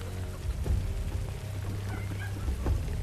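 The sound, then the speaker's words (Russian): Rain falling on a meadow at night, a dense, even hiss with a low steady rumble underneath. “Ночь, поляна. Люди мокнут под дождем.”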